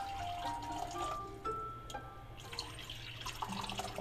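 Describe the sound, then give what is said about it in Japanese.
Hot water poured into a large IKEA 365 glass, filled about one third, to warm it before tea: a quiet, steady trickle with a few ringing tones over a low, continuous background hum. “3分の1ぐらいお湯を入れました”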